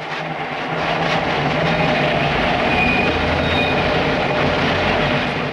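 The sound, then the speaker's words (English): A moving trolley train rumbles along with a steady, loud, low roar and rattling that builds slightly at the start and then holds even, with a faint high squeal partway through. “Yuri hops onto the moving train and takes a seat behind her.”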